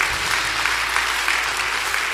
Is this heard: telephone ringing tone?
no